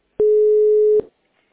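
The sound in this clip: Telephone tone while a call is being connected: one steady mid-pitched beep of just under a second, clean and loud, opened by a click and closed by a brief crackle, then silence.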